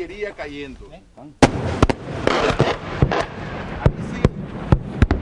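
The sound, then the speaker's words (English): Artillery fire booms at an army military exhibition showing Soviet-era armor and artillery, with many sharp, loud reports in irregular succession over a rumbling background, preceded by a voice speaking briefly before the first blast. “the Nicaraguan army staged a military exhibition to show how it would use its Soviet-era armor and artillery to repel an invasion.”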